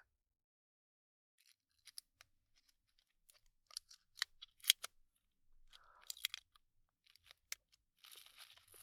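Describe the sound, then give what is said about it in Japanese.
Crinkling and crackling as the wrapping of a small wrapped snack is opened, with quiet, sparse crunches at first, growing busier toward the end. “じゃあ最初は味見も兼ねて小さいやつね。包み開けるよ。”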